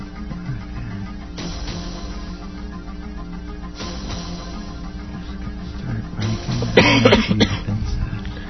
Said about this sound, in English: seems to be having a coughing fit here, but I hope that's not disrupting anything